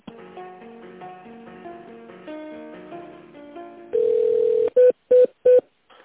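Telephone line tones during a call transfer: a short electronic hold melody plays, then gives way to a steady tone, followed by three short beeps in quick succession.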